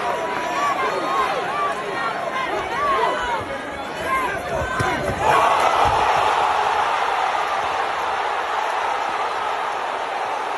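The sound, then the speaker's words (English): A crowd roars at a sixth-round boxing knockout, a dense, loud wall of cheering and shouting that swells partway through and stays high, with people talking over it. “So that is the sound of the sixth round when Tyron Woodley, Jake Paul hit Tyron Woodley and Tyron Woodley hit the mat.”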